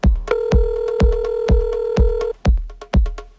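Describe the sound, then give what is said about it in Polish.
Telephone number being dialed, with a steady tone held under a regular series of sharp clicking pulses, then a few quicker beeps and clicks, loud and alone. “wykręca numery”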